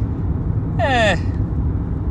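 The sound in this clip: Steady low engine and road rumble inside a moving car, a constant hum throughout, with one brief high tonal chirp near the middle.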